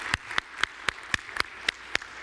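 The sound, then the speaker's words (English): Applause welcoming a bishop before he preaches: eight sharp, evenly spaced claps in a steady rhythm, moderately loud, with no voices. “So let us welcome him by applauding Bishop Bard.”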